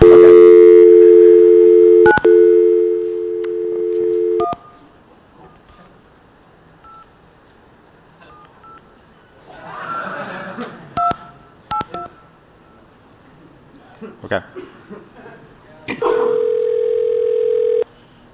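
Telephone dial tone and dialing tones on a call to McDonald's: a steady, loud tone holds for about four seconds, broken by a click. Quieter clicks and short beeps follow, and a second steady tone sounds near the end.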